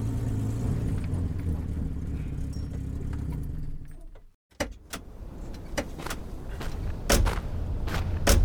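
A car halts on a narrow passage: its steady engine rumble fades and cuts off into a brief silence, then a few sharp clicks and knocks follow.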